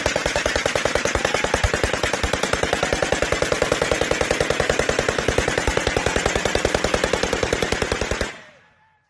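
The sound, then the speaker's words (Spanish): Sustained automatic gunfire from masked Jalisco cartel gunmen firing rifles into the air: a rapid, evenly spaced stream of many loud shots that runs steadily for about eight seconds, then stops with a short fading tail. “Los hombres llevan la cara tapada, lanzan vivas al jefe de ese grupo criminal, Nemesio Ceguera, alias El Mencho, y disparan al aire.”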